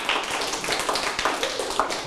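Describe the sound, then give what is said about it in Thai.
Students in a Thai literature class clap for a classmate's answer, scattered and fairly light taps of hands that come in small bursts. “จริงไหมถูกไหมครับถูกต้องปรบมือ”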